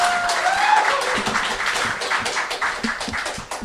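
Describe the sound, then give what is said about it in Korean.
Audience applause after a live song, with irregular, scattered claps rising and falling in loudness rather than a full, dense ovation. The clapping thins toward the end. “김대중 씨에게 다시 한번 박수 부탁드립니다”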